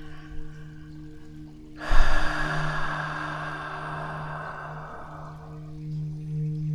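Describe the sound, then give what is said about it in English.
A long, slow breath rises suddenly into an airy rush and then thins out gradually over several seconds, above a low, steady tonal hum. “Exhale through your mouth one more time. Breathe through your nose.”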